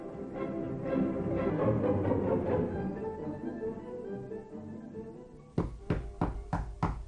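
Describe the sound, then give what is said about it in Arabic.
Knocking on a door in a radio drama: a quick series of firm, hollow knocks comes at the end, after a stretch of softer rumbling noise. “مين اللي بيخبى؟ ده انا يونس. سعاد ده يونس بيخبط، افتح له.”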